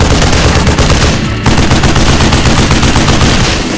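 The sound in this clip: Loud, rapid machine gun fire in a battle, one dense unbroken stream of shots that drops away briefly near the middle and then resumes just as heavily.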